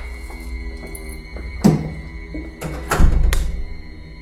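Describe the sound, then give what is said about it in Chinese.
A door being opened into a dark room, a couple of dull thunks and clacks rising above a steady low hum and faint background tones. “打开房门，房内一片漆黑”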